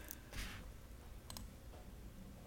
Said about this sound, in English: as you hear me typing